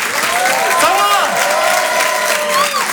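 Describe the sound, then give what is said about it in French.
An audience applauds and cheers a comedian being welcomed on stage at a stand-up comedy show. The clapping is dense, loud and unbroken, with voices rising over it throughout. “Je vous demande de l'applaudir très fort pour cet Open du Rire.”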